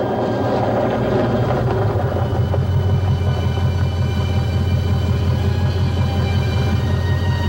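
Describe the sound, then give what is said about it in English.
A car drives along a deserted road at night, its engine giving a steady, loud, low rumble that holds evenly throughout. “on a deserted road, Skip's car headlights probe the darkness. He pulls off into a gravel parking lot.”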